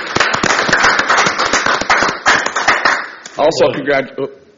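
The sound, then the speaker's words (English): Audience applause at a natural resources district board meeting congratulating a staff member: a dense burst of many claps that fades as a voice begins speaking. “So congratulations to Eric. I'd like to give him a hand for that.”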